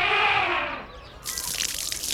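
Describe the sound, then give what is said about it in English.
Water spraying and splashing as an elephant takes a shower. A dense, hissing gush of spray comes in partway through and continues steadily to the end. “He has a shower every day.”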